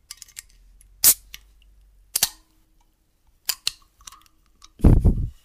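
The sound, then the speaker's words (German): A drink can being opened: a few scattered small clicks and taps, then a louder, broad hissing pop near the end. “Jetzt machen wir erstmal die Dose auf.”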